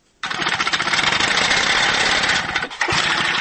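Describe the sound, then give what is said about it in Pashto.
A compressor drives illegal digging for precious stones in the mountains of Chapa Dara district, giving off a loud, steady mechanical roar. The roar starts abruptly and dips briefly near the end before it resumes. “دا د هغه ماشین یا کمپریسر غږ دی چې د قیمتي ډبرو کان کیندونکي پرې غرونه کوي”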